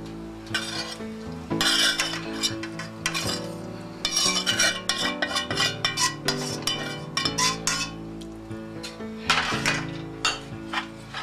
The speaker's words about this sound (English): First, I'm going to mix my sautéed onions and mushrooms.